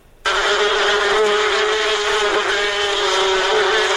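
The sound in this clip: Honey bees buzzing at a bee farm in Kunduz: a dense, steady drone starts abruptly after a brief quiet moment and holds loud and even, with no voices.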